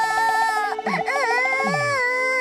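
A small child cries, apparently after losing their mother: a steady, wavering, high-pitched wail with sobbing pulses and a brief catch in the middle, loud and without other voices.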